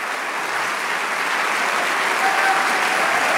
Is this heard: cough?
no